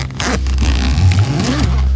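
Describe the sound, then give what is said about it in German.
A zipper is carefully opened, giving a series of short, rasping pulls with slight pauses between them, fairly loud and with no voices. “Ich mache jetzt vorsichtig den Reißverschluss auf.”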